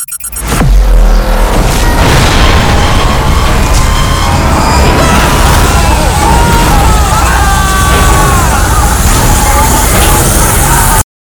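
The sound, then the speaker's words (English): Weapons fire and explosions aboard a ship under attack: a loud, dense, unbroken roar of blasts and rumbling that runs for about eleven seconds, threaded with whining, wavering tones. “They're firing! Hot to starboard! Hot to starboard!”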